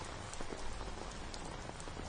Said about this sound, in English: Like the weather. Like this damn rain.